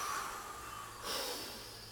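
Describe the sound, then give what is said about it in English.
A forceful exhale out through the mouth during a guided breathing exercise: a breathy rush swells suddenly partway through, then slowly tapers off, with no talk. “Powerfully exhale it out into the room.”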